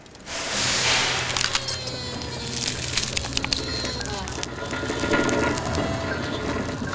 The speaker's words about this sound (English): The lights go on inside the carriage. The train wheezes into life.